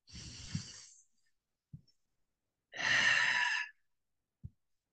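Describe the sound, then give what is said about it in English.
Guided breath-work breathing, in through the nose and out through the mouth: two long, airy, hissing exhales alternate with two short, soft nasal sniffs. No one speaks. “Inhale through the nose and out through the mouth. One more.”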